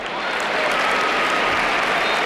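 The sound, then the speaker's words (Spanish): A stadium crowd applauds a substituted player leaving the pitch during a Spain versus Croatia football match. The ovation is a dense, loud, unbroken wash of clapping and crowd noise that holds steady throughout. “Escuchamos la ovación.”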